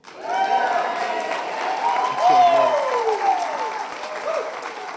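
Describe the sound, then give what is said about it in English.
An Easter Sunday church audience cheers and applauds, raised voices calling out over dense, continuous clapping that holds loud and steady for several seconds. “You cheered over your own.”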